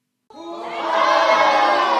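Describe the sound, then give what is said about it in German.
A crowd cheering in welcome during a rehearsal of a stage play on the Fraueninsel in Chiemsee: a sudden, loud swell of many voices shouting together, which builds slightly and then holds steady. “Mit großem Jubel wird Irmengard auf der Fraueninsel empfangen.”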